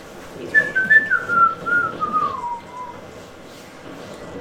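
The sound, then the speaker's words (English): A person whistles a short tune, a clear, fairly loud line of notes that steps downward in pitch, then falls silent, leaving faint background noise. “I was just whistling.”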